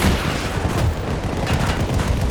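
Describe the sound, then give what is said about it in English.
Dense, continuous gunfire and heavy booming blasts from a video game battle, loud and sustained for the whole stretch with no talk over it. “Oh, there's one behind us too. We're getting shots from behind.”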